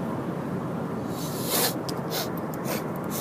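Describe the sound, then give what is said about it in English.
Sniffling from a constantly runny, allergy-stuffed nose: a few short, breathy sniffs over steady background hiss. “Pardon me, that was probably disgusting to listen to. I got allergies this year like I've never had before. Just a constant sniffly nose.”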